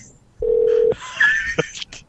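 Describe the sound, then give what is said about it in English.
A telephone number is dialed, producing a steady electronic tone for about half a second followed by a few shorter keypad beeps at different pitches. No voices are heard. “Okay, let's call them. All right, I got their number. I have their number memorized. Let's call their car.”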